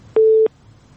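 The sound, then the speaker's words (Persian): A single short telephone busy-tone beep sounds after a caller's line drops during a radio call-in, a steady mid-pitched tone alone over faint hiss. “متاسفانه که است تماس فریبا جان هم قطع شد”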